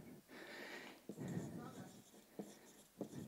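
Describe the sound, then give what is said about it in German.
Pen scratching on paper while writing by hand, a soft continuous scrape with a few sharper strokes, heard beneath a person talking. “Schreibe gleich meinem Vater dazu.”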